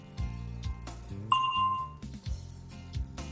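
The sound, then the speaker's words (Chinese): A bell tone prompts a learner's answer in a language drill: one bright ding with a shimmering ring that sustains briefly and fades, set against a low, steady tonal backing. “请在听到铃声以后回答。”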